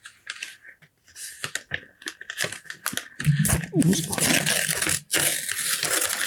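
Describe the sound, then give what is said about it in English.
Golden envelope being torn open: crinkling and tearing paper in dense bursts, loudest toward the end, while someone talks. “I'm just going to open the golden envelope.”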